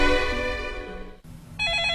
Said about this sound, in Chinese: 电话执拗地响个不停